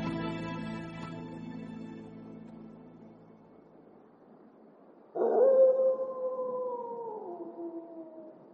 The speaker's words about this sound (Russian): Волчица рыскает неподалеку.